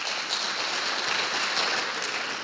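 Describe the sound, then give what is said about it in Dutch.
Applause rises from an audience welcoming a guest at a church gathering: a steady, dense wash of many hands clapping at an even level throughout, with no talking over it. “En laat hem een applaus geven.”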